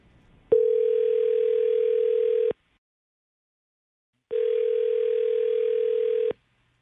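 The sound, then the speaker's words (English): Ringing on a dialled phone call: two long, steady ring tones of about two seconds each, separated by a quiet gap of roughly two seconds, with no voices. “let's call him and see if we can't get an answer and find out what went wrong.”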